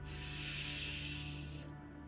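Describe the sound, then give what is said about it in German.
A long, deep breath is drawn in during a guided meditation. It is a steady, airy hiss lasting under two seconds that cuts off near the end, over a faint low hum. “Und dann nochmal einen tiefen Atemzug. Atme tief ein”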